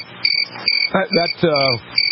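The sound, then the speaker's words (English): Crickets chirping as a played sound effect: a steady, high, shrill trill runs through the whole short clip, with a voiced sound briefly overlapping it in the middle. “That is the sound of crickets.”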